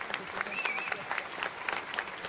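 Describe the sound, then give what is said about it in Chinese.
Applause after an erhu performance in a Vienna concert hall: dense, steady clapping from a large audience fills the whole clip with an even, crackling texture. “随即掌声如潮水般涌起，瞬间席卷了整个大厅。”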